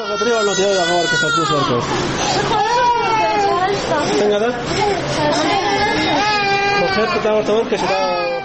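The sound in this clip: Several sick babies with diarrhoea cry in the crowded women's ward of a provincial hospital in Tarinkot. Their loud, overlapping wails rise and fall continuously, with adults' chatter underneath.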